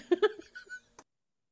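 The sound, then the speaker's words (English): A cat meows in a few short, bright calls in quick succession, followed by a brief sharp noise and then quiet. “Kitty, don't attack my shoe.”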